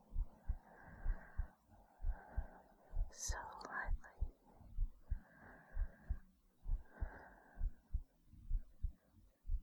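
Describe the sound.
Slow, steady heartbeat of soft, low thumps in a regular paired rhythm, faint and continuous, with a brief breathy whisper partway through.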